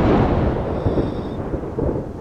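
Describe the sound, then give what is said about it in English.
Rumbling thunder with steady rain, a continuous low, dense roar that holds at a fairly even loudness throughout, with no voices. “it starts to rain.”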